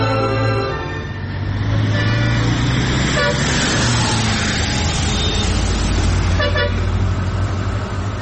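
A car drives in a drama scene, a steady engine rumble and road noise running throughout at an even level, with a thin high whine partway through.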